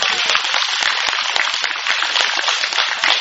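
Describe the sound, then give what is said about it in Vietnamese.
Audience applause for the kitchen staff at a Buddhist teaching session: loud, dense clapping from many hands that stays steady and unbroken throughout. “Cho nhà bếp tặng pháo tay gì không?”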